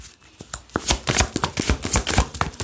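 Tarot cards being shuffled, a rapid run of crisp papery clicks and flicks in an uneven rhythm, fairly soft and heard alone without talk.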